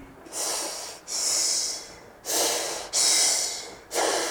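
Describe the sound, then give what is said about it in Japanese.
A voice imitates a wife's soft, small sleeping breath with five airy, hissing breaths. Each lasts under a second, with brief gaps between them, and the breaths are heard alone, without talk. “いびきとは言えないぐらいの小さい可愛い寝息をするんですが”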